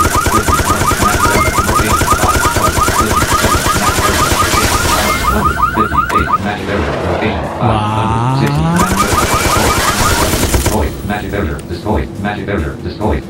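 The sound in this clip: Rapid gunfire from a video game as the player shoots down magic barriers: loud, dense bursts of automatic shots run almost without pause across the whole clip over a steady layer of game sound.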